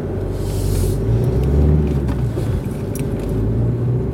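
A car driving along a road gives a continuous low rumble of engine and road noise, steady and fairly loud for about four seconds, with no voices and no sharp events.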